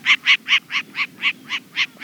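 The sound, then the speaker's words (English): Short-eared owl, a day-hunting owl, giving a rapid series of nine evenly spaced, high-pitched pulsed calls of fairly even loudness. “It's a short-eared owl, an owl specially adapted to hunt during the day.”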